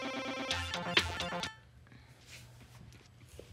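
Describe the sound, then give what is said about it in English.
A phone alert chimes for an incoming work email: a short melodic run of bright, clear electronic notes lasting about a second, then fading into faint, quiet background noise. “That's the sound it makes when I get a work email.”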